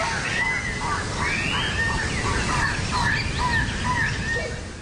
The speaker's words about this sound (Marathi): वाटेत उंच उंच वृक्ष, हिरव्यागार वनराई आणि पक्ष्यांचा मधुर किलबिलाट आपलं मन प्रसन्न करतो.